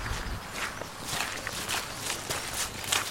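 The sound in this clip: Footsteps walking uphill through a vineyard, a steady series of moderately loud steps at an even walking pace with light rustling between them.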